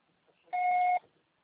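A single voicemail beep signal: one steady electronic tone lasting about half a second, clear and alone after near silence.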